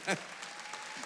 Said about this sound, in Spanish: Denle un aplauso a la bisabuela.